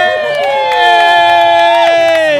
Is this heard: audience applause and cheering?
yes